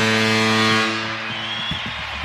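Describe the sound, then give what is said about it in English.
A big foghorn sounds at a hockey arena at the start of a game. The blast is loud, low and sustained with a rich, buzzing tone, then drops away after under a second into quieter, rumbling noise. “And this game will begin with a big foghorn here at Climate Pledge Arena.”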